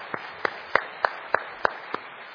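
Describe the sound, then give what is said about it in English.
An audience claps together at an evening gathering, giving seven distinct, evenly spaced claps in a steady rhythm over faint background noise. “I want you to give them all a clap this evening, because they deserve it.”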